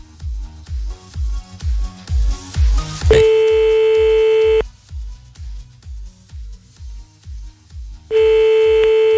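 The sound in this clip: Telephone dialing tones as a call is placed: a quick run of short beeps, then a long steady tone that cuts off and returns, all over a low, steady pulsing beat.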